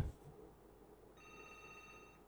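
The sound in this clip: Telephone ringing for an incoming call to a call-in program: a faint, steady electronic ring tone made of several bright layered pitches begins about halfway through and holds to the end over a low background hiss.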